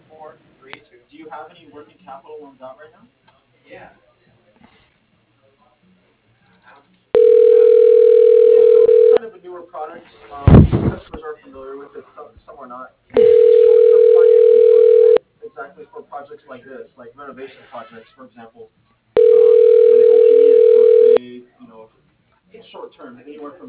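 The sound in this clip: Telephone ringback tones heard while a call is transferred to voicemail: three evenly spaced, steady tone bursts, each lasting about two seconds. Talking fills the gaps between them, and a sharp, loud crackle follows the first tone.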